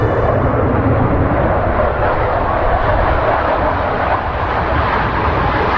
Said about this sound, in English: Although the fighter jets are taking off and landing all around her